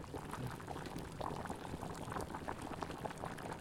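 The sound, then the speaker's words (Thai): Hot tom yum broth carrying herbs and shrimp fat pours into a pot, making a steady, dense liquid rush with bubbling texture that stays even throughout, without any voices. “กำลังวุ่นวายกันอยู่กับการใส่น้ำซุปเหมือนน้ำต้มยำมันจะไม่ใช่แค่น้ำมันจะมีเครื่องต้มยำอยู่ด้วย”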